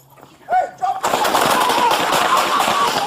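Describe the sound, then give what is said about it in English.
Gunfire from an officer-involved shooting caught on Oklahoma City police body camera footage. A voice shouts briefly, then a loud, dense burst of rapid shots continues without pause. “Oklahoma City Police Department, they've released this body cam footage from an officer-involved shooting that occurred on Monday, June the 16th.”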